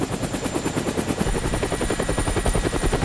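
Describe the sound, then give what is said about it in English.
A military helicopter at an airport gives a fast, steady thumping of rotor blades over a loud, continuous engine roar that stays even in level throughout. “is ushered into a military helicopter”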